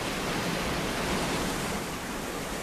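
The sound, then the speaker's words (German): Treated water splashes out of a wastewater treatment plant into a river, a steady dense rushing wash with no breaks that holds at an even level. “man hört es im Hintergrund, es plätschert hinten dran das Wasser und das ist genau das Wasser, das vorher oben reingekommen ist, dreckig und jetzt super quasi wieder rausläuft in die Limmat”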